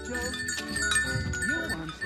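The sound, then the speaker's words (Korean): Goats wearing bells in the deep mountains, being led home: a goat's bleat rises and falls among steady ringing bell tones, with faint jingling throughout. “깊은 산속에서 견목동을 만났습니다. 이 염소들을 집으로 지금 데리고 가는 것 같아요.”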